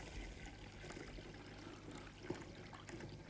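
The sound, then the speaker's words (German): A liquid brewing mixture is poured through a funnel into a bottle, making a faint, steady trickle and gurgle that runs unbroken throughout, with no talking. “Und wir können den Ansatz jetzt in die Flasche geben. Und am besten natürlich mit einem Trichter, damit nichts überläuft.”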